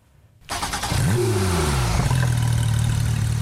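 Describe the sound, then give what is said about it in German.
A Porsche 911 GT3 engine bursts into life after a moment of silence. It revs hard, its pitch sweeping up and back down, then settles into a loud, steady, throaty drone. “So hört sich geballte Kraft unter der Motorhaube an. Der Antrieb eines Porsche 911 GT3 startet durch.”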